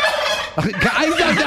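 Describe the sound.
A turkey gobbles in a quick, warbling burst of rattling, wavering notes that begins partway through and runs to the end, loud over a steady background hiss.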